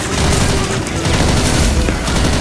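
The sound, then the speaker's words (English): Heavy gunfire from a SWAT team amid rubble forms a dense, continuous roar of overlapping shots that stays loud throughout with no clear break. “Then the SWAT team flies in, searching for Batman. They chase him through the rubble. Bullets fly through the air.”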